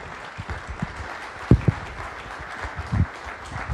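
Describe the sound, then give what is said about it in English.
A church audience applauds a guest speaker at the start of the second service. The clapping is a soft, steady wash, with a few louder thumps standing out here and there. “So if you guys would you put your hands together and just give Jeremy Westbrook a warm welcome.”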